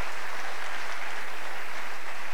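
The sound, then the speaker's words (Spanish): Audience applause at a sales and business seminar: dense, steady clapping that holds at an even level for the whole clip, with no voices over it. “desen un aplauso por estar acá”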